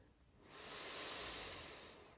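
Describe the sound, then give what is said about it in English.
Slow, steady breathing: one long inhale swells smoothly from quiet into a broad, airy hiss and holds its strength to the end, with no other sound. “So just listen to my steady breath. Let your lungs fill with air as I inhale.”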